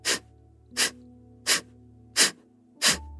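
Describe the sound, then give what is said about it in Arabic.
Five forceful, breathy exhales from a breathing exercise, each a sharp puff of air following a breath in, evenly spaced and loud, with a low steady hum beneath and no talking. “نبدأ بأنه ناخد شهيق، ومع الزفير رح يطلع صوت الزفير زي هيك.”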